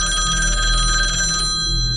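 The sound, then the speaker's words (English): A telephone on a table rings with a loud, steady electronic bell tone. The ringing continues without pause for the full two seconds, with no voices. “you notice that there's a telephone on the table in front of you and it begins”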